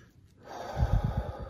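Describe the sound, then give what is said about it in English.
A deep breath drawn in and let out as a calming exercise. A soft, airy rush swells from near silence into a rough, breathy exhale, with no talk. “First, take a deep breath.”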